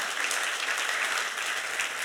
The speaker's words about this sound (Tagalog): Oh, palakpakan natin ang kabutihan ng Diyos.